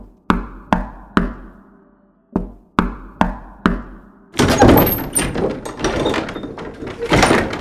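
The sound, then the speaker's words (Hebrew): Sharp, loud knocking on a door: three raps, a short pause, then four more in an even rhythm, followed by a sustained burst of noisy clatter. “כשהגיע החסיד אל הבית, דפק על הדלת.”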